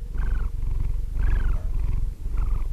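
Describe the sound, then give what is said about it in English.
A sleeping male house cat purrs in a steady, deep rumble that swells in three rhythmic cycles with each breath, a raspy higher tone rising on every inhale, close and loud with no voices. “This is the sound of my cat, Sammy, sleeping.”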